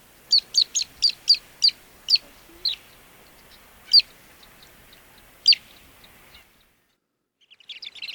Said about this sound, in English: I believe this is the Western Sandpiper.